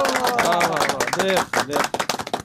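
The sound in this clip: Clapping for a correct answer on a quiz show: a voice talks at first, then a run of quick, sharp, separate claps takes over in the second half.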